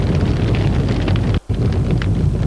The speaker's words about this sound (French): Gilles prend les vêtements et les jette au feu.